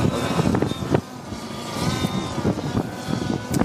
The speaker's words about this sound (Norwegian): Det vi så her nå, er en uh, autonom takeoff. Uh, eh, når vi trykker på start på anlegget, og anlegget skal starte og operere, så tar flyet av vertikalt ved hjelp av noen propeller.